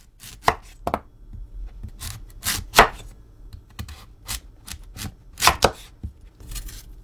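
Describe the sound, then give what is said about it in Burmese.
A knife slices sweet potatoes into thick rings, about 2 cm each, on a cutting board: many sharp, irregular cutting taps and scrapes, some louder than others, with no voices. “ကစုံဥတွေကို2စင်တီမီတာအထူအကွင်းလိုက်လှီးပါ”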